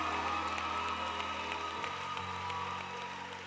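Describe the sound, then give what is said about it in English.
A church audience applauds an engaged couple with a steady, even wash of clapping that runs throughout over sustained low musical tones. “Would you help me give a resounding applause and a congratulations?”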